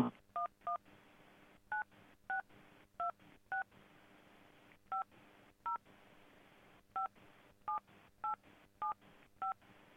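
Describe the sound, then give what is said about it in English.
Telephone keypad DTMF tones as a number is entered on a prepaid calling service, many short, clean beeps in irregular groups separated by brief pauses. “Please enter the telephone number you wish to dial.”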